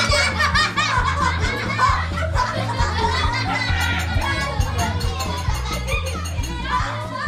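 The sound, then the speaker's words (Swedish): Children laugh, giggle and shriek at a cheerful birthday party in Sweden. The laughter and excited young voices run continuously and stay lively from start to finish. “Här hörde vi en inspelning från ett mycket glatt barnkalas någonstans i Sverige.”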